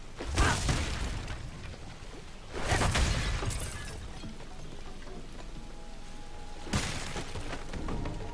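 Stone walls breaking apart in three loud crashing, crumbling bursts, with a gritty, rain-like patter of debris continuing quietly between them.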